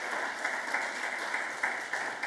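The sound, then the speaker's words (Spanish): A church audience applauds with dense, continuous clapping at an even level, with a few slightly louder accents scattered through it. “Dale una ofrenda de palmas al Dios de la gloria.”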